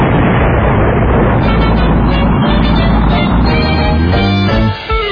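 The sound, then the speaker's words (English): Firing blast after a countdown: a loud, sustained, rumbling roar that fills nearly the whole moment, then cuts back sharply at the very end. “5, 4, 3, 2, 1, fire!”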